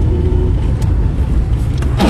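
A car driving, heard as a loud, steady rumble of road and engine noise with a faint whine and a few brief swishes near the end, no voices.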